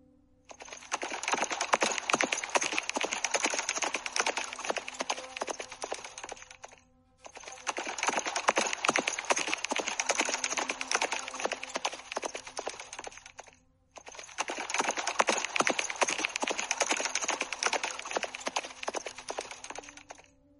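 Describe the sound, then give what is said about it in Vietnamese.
Galloping hooves from a herd of more than a thousand war horses clatter densely and rapidly in three long, even bursts separated by brief gaps, with no neighing audible. “Bầy ngựa nhất thời điên cuồng hí vang, bốn vó tung ra, chạy trối chết về phía trước.”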